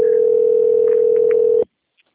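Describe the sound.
The ringing tone of an outgoing phone call sounds as one steady, unbroken tone of moderate pitch for about a second and a half, then cuts off abruptly into silence.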